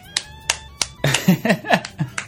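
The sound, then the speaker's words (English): Brief, scattered hand clapping from a small group at a game show, with sharp individual claps mixed with voices. “Tell your mother thank you for that applause.”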